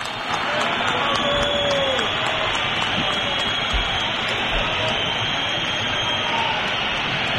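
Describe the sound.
A football stadium crowd whistles in protest after the final whistle, a dense, loud, unbroken wash of shrill whistling that continues throughout.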